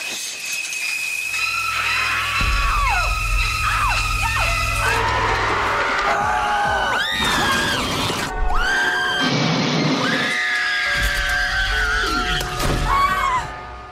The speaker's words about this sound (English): So that is the sound of lots of people dying fictionally in some major motion pictures, some historical ones in there as well.